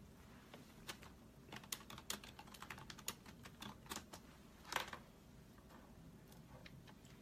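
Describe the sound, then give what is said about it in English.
Typing on a computer keyboard, with many soft, irregular key clicks that come in quick bursts, faint and without talk. “Let me type it in here.”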